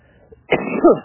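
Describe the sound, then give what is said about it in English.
A woman coughs once: a short, rough, throaty burst that rises abruptly out of near silence and trails into a raspy, throat-clearing tail. “The coughing is how you know that I'm not a robot, by the way.”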